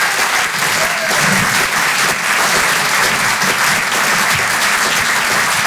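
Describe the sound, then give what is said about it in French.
Applause from a comedy club audience at a Rire et Chanson Comedy Club show, a dense and steady burst of clapping that stays loud and even throughout, with no voices rising above it. “Faites du bruit s'il vous plaît pour David Azencott.”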